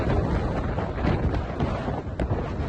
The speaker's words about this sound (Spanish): Y así suena también el viento en Menorca.